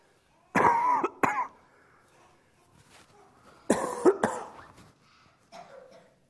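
Coughing from someone still recovering from allergies: a couple of loud, harsh bursts of coughs, then a quieter stretch and a brief, fainter cough near the end.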